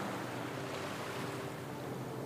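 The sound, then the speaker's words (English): Ocean waves washing in and flowing back at the shore, heard as a steady, broad rushing surf noise with a wind-like hiss, holding an even loudness with no separate crash in this short stretch. “but never reaches them and flows back out into the ocean. This beautiful rhythm, crashing water,”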